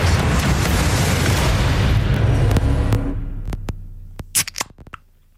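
A soft drink can is cracked open during a guessing game, releasing a loud, dense fizzing hiss that slowly fades over a few seconds and then gives way to a few small, sharp clicks.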